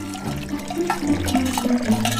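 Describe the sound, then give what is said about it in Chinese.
Salt water pouring into a bucket of cut napa cabbage gives a continuous splashing, gurgling rush of liquid that holds steady and fairly loud for about two seconds, with no talk. “将盐水倒入装有大白菜的桶中，盐水要没过大白菜”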